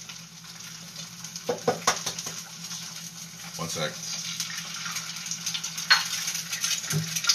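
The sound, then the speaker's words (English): Eggs sizzle as they fry in a pan, making a steady, broad hiss with a few sharper clicks and clatters. A person speaks briefly over the cooking. “That's the sound of eggs cooking.”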